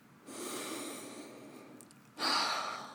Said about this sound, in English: Then take a moment and breathe deeply.